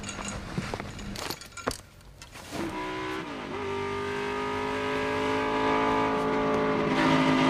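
Race car engine revving in a racing video game, a steady harmonic drone whose pitch climbs gradually after a few clattering knocks at the start, growing slightly louder toward the end.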